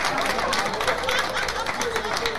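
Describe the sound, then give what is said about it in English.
Applause from an audience at a live jazz show, greeting the drummer, a dense, steady wash of clapping with crowd voices mixed in throughout. “we have Leo Morris on the drum. Give him a nice hand.”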